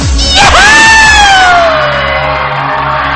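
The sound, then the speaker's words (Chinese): A crowd screams and cheers at the close of a nighttime music set, a loud, continuous roar of many voices with one high shriek that rises and then glides slowly downward. “朋友，最后来个尖叫声”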